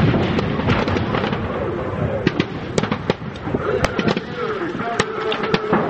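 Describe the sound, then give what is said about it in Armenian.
Rocket artillery and tank guns fire during a military exercise in the Alagyaz mountains. Many sharp cracks and booms crowd together in a dense, irregular barrage over a constant rumbling background. “Բավականին մեծ թվով ռեակտիվ հրետանի օգտագործվեց, տանկերից ու հատուկ նշանակետից ռմպակոծվում էր Ալագյազի սարերը։”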